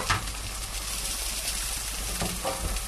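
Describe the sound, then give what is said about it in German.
Food sizzles as it fries in oil in a pan, turned with tongs. A steady, dense crackle and hiss runs throughout with no pauses and no talk. “Ja, ich brate jetzt erstmal alle an.”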